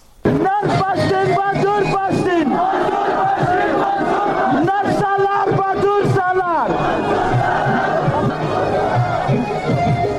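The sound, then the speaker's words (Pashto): At a Pashtun Tahafuz Movement rally in Rustam Bazaar, Wana, South Waziristan, a large crowd chants slogans in loud, rhythmic bursts, then settles into a more continuous mass of shouting voices. “دا جاغونه د پښتون ژغورنې غورزنګ د غي جلسې دي چې 13 ورځ په 9 اپریل د سویلي وزیرستان واڼه رستم بازار کې په میرزا عالم پمپ باندې وشوا”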